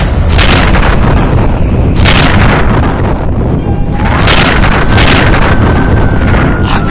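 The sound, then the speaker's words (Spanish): A sci-fi proton ray blasts a gate: loud, heavy booming bursts over a continuous rough roar, with a thin tone that rises and then holds. “¡Activa el rayo de protones! ¡Dispara al portón!”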